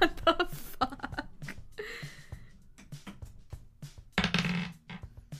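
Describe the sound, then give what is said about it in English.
Dice clatter and spin on a table during a tabletop role-playing game, with a quick burst of sharp rattling clicks at the start, then quieter intermittent sounds. “It was so, the dice was like spinning. Between the 8 and the nat 20.”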